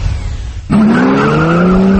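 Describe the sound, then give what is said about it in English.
Race car tires squealing in a skid at a raceway: a quiet low rumble breaks into an abrupt, loud squeal that holds to the end as its pitch slowly climbs. “It's a weekend full of racing at Skelton Raceway in Sykeston.”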